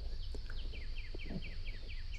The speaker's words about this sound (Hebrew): נשים לנו קצת ציוצים של ציפורים